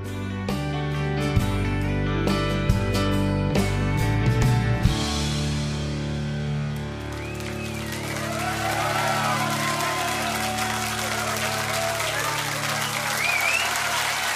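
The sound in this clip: A live band performance for a studio audience at Maida Vale Studios ends with ringing chords and drum hits. Applause and cheering then swell and continue over lingering instrument tones.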